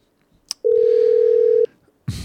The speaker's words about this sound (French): C'est parti, on l'appelle. Est-ce que ça va ? Oh, ça sonne.